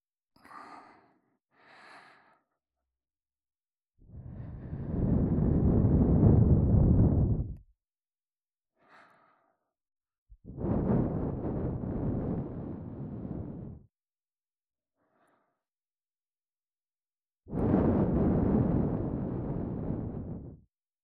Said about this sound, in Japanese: まずは、お耳の中を、優しく、ふぅ、ふぅってしていきますね。